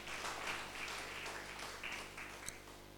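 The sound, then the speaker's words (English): A church audience claps in praise during a Sunday service. The clapping is faint, a steady patter of many hands with one sharper clap standing out near the end. “Clap for us, is our Sunday school teacher. Praise God. Give the Lord a mighty hand of praise.”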